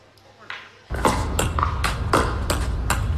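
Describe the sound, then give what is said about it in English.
Pickleball paddles thwack a pickleball in a rapid back-and-forth series of sharp, hollow pings over a steady wash of background noise. “That is a pickleball. Okay, enough of that. That's a pickleball thwacking sound.”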